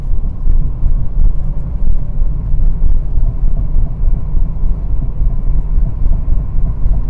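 Steady low road rumble of a car driving, a dense continuous drone that holds at an even loudness throughout with no voices.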